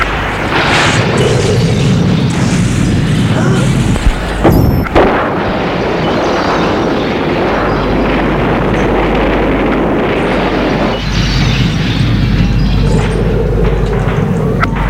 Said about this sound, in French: il y a une explosion et une immense fumée noire.